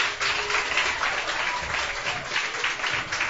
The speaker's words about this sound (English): Could we have a big round of applause for Alan?